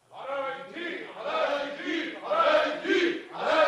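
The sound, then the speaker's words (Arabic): A crowd of voices shouts and clamours in a story set in Aladdin's tale, demanding a prisoner's release, in several swelling waves of loud, overlapping cries that grow stronger toward the end. “ايه الاصوات اللي جايه من بعيد دي؟ الجماهير سايره يا مولانا. عايزين ايه؟ بيطلبوا بالافراج عن علاء الدين.”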